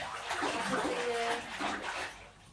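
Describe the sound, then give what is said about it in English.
Bathwater swishes and sloshes steadily as a child is washed in a bathtub. The soft, continuous watery splashing stays at an even level throughout. “Right, stand up and let's wash your body.”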